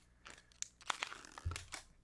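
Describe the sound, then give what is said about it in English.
Plastic is crushed and crinkled right up against the microphone: many sharp, dry crackles and snaps in an irregular burst, with a heavier crunch near the end, and no talking. “Can you please not crush a plastic Yeah, I don't think the listeners like that very much.”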